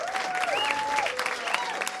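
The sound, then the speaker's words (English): Crowd applause: a dense, steady clatter of many hands clapping throughout, with a voice calling out in rising and falling tones over it. “Clap, clap, clap, clap, clap.”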